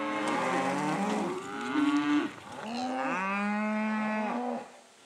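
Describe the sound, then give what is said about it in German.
Cattle mooing on pasture: two long, drawn-out moos with wavering, tonal pitch, the second rising then falling, fairly soft and alone. “Das Rind ist ja ein Herdentier und dementsprechend muss es wandern.”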